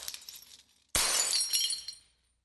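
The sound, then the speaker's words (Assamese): A mirror breaks and shatters: a sudden loud, bright crash is followed by tinkling glass fragments that fade over about a second into silence. “তাৰ পাছত সেই নীৰৱতা ভংগ কৰি আইনা ভগাৰ থনৰ থনৰ শব্দ।”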